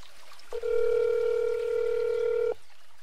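A telephone line rings while a caller phones a contest winner: a single steady, mid-pitched tone held for about two seconds, then quiet, with no voices.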